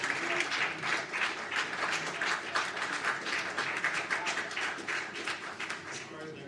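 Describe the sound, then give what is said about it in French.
Applause for the ICANN staff at a meeting: dense, continuous clapping from a crowd at a steady level throughout, with some talk mixed in. “Donc, il faut applaudir le personnel ici de l'ICANN.”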